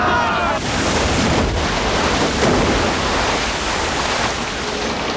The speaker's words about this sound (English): As a torrent of water gushes in through the hole in the cabin, Sam